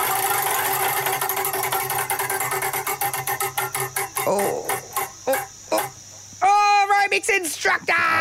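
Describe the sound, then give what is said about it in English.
A prize wheel spins with a long run of rapid ticks that gradually slow and spread apart. A sustained tonal sound follows near the end. “Shall we spin the wheel?”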